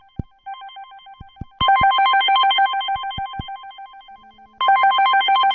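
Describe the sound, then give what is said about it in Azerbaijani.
A phone rings with an incoming call. A bright electronic trilling ringtone swells in over a fainter steady tone, pauses briefly, then starts again, after a few sharp clicks at the start. “Sadəcə zəng gəldi, ha.”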